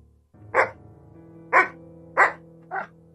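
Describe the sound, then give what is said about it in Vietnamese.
A dog barks four times in sharp, loud bursts, with the last bark a little weaker, from a white dog that rushes out of a doorway before leaping a fence. “Tiếng chó sủa vang lên.”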